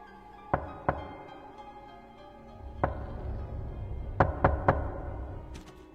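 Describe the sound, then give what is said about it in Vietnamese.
Knocking on a door, loud sharp raps: two knocks early, a lone knock near the middle, then a quick set of three evenly spaced beats, followed by faint tapping, with no voices. “tiếng gõ cửa bất giác lại vang lên một lần nữa, rất khó chịu, ba nhịp một.”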